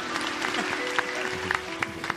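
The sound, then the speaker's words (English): Audience applause, called up on cue by a performer: steady dense clapping with sharp individual claps standing out, plus a sustained tone beneath. “Let's applaud like it's happening here. I love everyone. Start applauding. Bring it in. Go ahead.”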